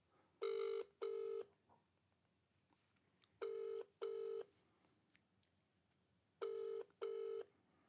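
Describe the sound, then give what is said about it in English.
Telephone ringback tone from an outgoing call, three paired double rings at a steady pitch, each pair followed by a quiet gap, loud and alone with no talk. “Should we try calling Nils?”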